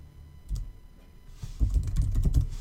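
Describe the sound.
Code is typed on a computer keyboard as a steady run of clicking keystrokes, sparse at first and then a denser, louder stream.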